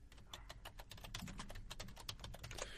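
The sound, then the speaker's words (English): Computer keyboard typing: many quick, light keystrokes in a fast, slightly uneven patter, faint and steady, with no voices. “Let me type it in.”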